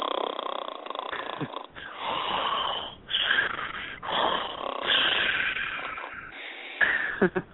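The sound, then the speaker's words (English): Loud, rough snoring from a sleeping man, several wheezy, snorting breaths in a rasping rhythm separated by short pauses, ending with a couple of sharper snorts. “Gee, who the fuck snores like that?”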